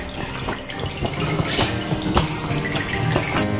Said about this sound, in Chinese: 看它下滴的水了，看下滴水变清澈了，就可以放进去。